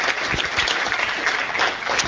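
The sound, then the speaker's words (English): Applause from an audience welcoming new chamber members: a dense, steady wash of many hands clapping, loud and even throughout with no single claps standing out. “So let's give them a round of applause and welcome them to the chamber.”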